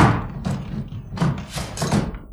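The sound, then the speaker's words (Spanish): Heavy blows strike a door as its panel is broken in, a few loud, dull thuds with splintering cracks in an irregular rhythm, with no voices. “Lograron romper un panel de la puerta y descorrieron los pasadores.”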